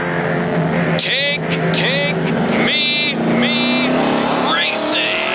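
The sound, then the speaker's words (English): Race cars at the La Crosse Fairgrounds Speedway roar past, with several high engine whines sweeping up and down over a constant rumble, under a person talking throughout. “Saturday, August 8th, is Classic Hits Night at the Races at the La Crosse Fairgrounds Speedway.”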